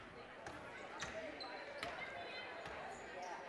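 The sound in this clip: A basketball is dribbled on the court during a women's game, with a few crisp, evenly spaced bounces beneath a commentator's steady talk.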